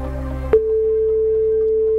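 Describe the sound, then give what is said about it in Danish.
A phone line tone while calling an airline's customer service: a sharp click, then a steady, clear mid-pitched tone held for more than a second over a low hum. “Vi ringer bare op til kundeservice nu, ikke? Jo, vi ringer bare op til DAT.”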